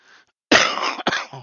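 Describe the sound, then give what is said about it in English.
Two harsh coughs, the first longer and the second shorter, from a man getting over a lingering three-week cough, with a faint brief sound before them and no talk. “I'm still getting over this cough.”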